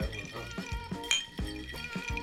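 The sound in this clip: Glasses filled with White Russian cocktails over ice clink together in a toast, giving many light, quick chinks under steady talk.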